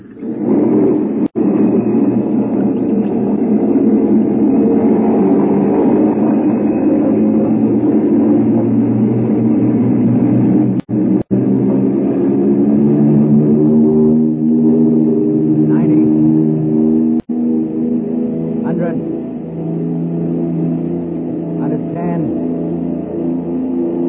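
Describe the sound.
An Army aircraft's piston engines roar during takeoff on the runway, making a loud, steady, low, layered drone that runs throughout with only a few tiny breaks.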